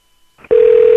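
A telephone rings as a single steady electronic tone that starts abruptly after a brief faint rustle and holds one even pitch, loud and with no voices.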